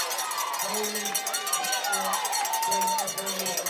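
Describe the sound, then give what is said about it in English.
Home crowd at a high school football game, fans on their feet cheering: a steady wash of crowd noise with repeated rhythmic clanking hits over it. “The Handley people on their feet making a little bit of noise now.”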